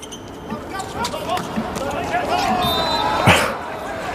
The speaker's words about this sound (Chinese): 这二传发球，